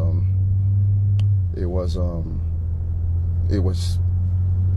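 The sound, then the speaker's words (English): A low, constant rumble fills the inside of a car driving around, a heavy droning hum that runs unbroken beneath a few short bursts of people talking. “They were in a car. That's what you're hearing.”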